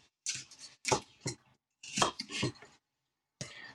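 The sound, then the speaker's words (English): A knife cutting apples into quarters and smaller pieces, with the seeds removed, for a smoothie: several crisp, crunching cuts come in short clusters separated by brief pauses, with no talk over them. “So I cut them into quarters, and then I take out the seeds, and then I cut them again, in each of those in half again, and that should be enough to make it blendable”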